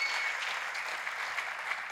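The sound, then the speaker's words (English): Applause from a church audience celebrating its children's ministry: dense, steady clapping that holds at an even level for the whole two seconds, with no voices standing out. “And save your best applause for now, 82 kids giving their hearts to Jesus.”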